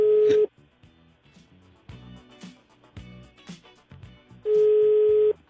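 An unanswered telephone call's ringback tone: a steady, mid-pitched electronic buzz sounds briefly at the start, then after a long gap filled with quieter low sounds a second, longer burst of the same tone returns.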